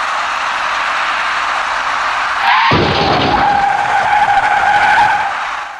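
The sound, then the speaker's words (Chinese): A white van turning left collides with a small green car at an intersection: a loud, sustained tire screech is cut by an abrupt crash midway, followed by continued harsh scraping noise. “在路口里面，由南向西左转弯的白色面包车跟那辆由北向南直行通过路口的绿色小客出现了严重相撞。”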